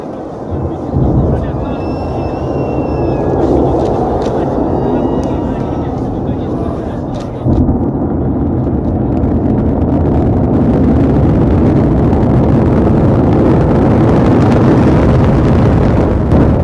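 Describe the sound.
A Soyuz rocket launch, watched from an observation site 1 km away, produces a loud, continuous rumbling roar. The heavy, low-pitched sound holds steady for the whole clip and swells slightly partway through.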